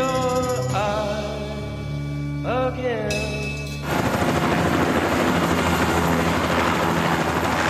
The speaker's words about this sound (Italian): un elicottero Bell 205 ha i motori accesi mentre carica alcuni impiegati della CIA sul tetto dei Pittman Apartments